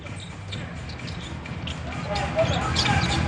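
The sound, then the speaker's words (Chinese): Bouncing of a basketball being dribbled during a game, soft repeated thuds blended into a steady roar of crowd noise and voices. “而且他的运球真的是往前运，推得很快。”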